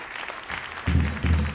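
An audience applauds a band's drummer and bassist with steady, dense clapping that grows louder in two surges toward the end.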